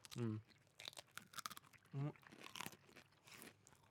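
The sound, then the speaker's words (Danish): Raw broccoli chewed with a crisp crunch while eating, giving several sharp crunching bites and softer chewing between them, with short hummed vocal sounds from the eater; the sound is faint overall. “Nå går jeg over på broccolin. Det har jeg jo spist rått før.”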